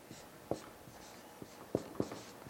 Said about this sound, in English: I would like to write a few things on the board here before I forget.